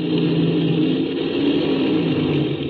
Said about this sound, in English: We're hitting that soft spot in the lake bed. I've got a taxi real fast.